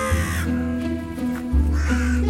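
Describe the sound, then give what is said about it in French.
Crows caw in a few harsh, raspy calls, each with a strong low buzzing tone, sounding clearly and alone. “Parce que vous pensiez que c'était facile la vie d'un corbeau.”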